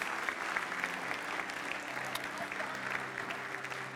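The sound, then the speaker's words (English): A church audience applauds to welcome people to the front, with soft, even clapping that carries on throughout. “And guys, why don't we just give them a good hand and just welcome them to the front.”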